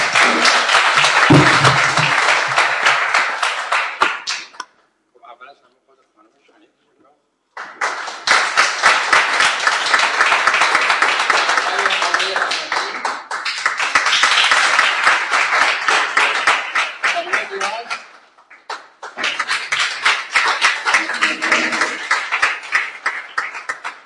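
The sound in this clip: Loud audience applause at an award ceremony comes in three long bursts of dense, crackling clapping, separated by a near-silent pause around five seconds and a brief dip later.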